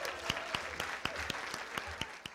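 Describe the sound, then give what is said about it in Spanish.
An audience gives a round of applause, a soft, steady patter of clapping. Sharper individual claps punch through at a fairly regular rhythm. “Un aplauso, un aplauso. Let's give her a hand.”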